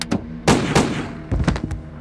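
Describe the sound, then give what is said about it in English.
Gunshots from a .357 Magnum revolver fired during an armed confrontation by a car: several heavy, muffled bangs in a quick, irregular series, loud and alone with no voices. “An armed man leapt out and shot Walt Frago twice in the chest with a .357 Magnum.”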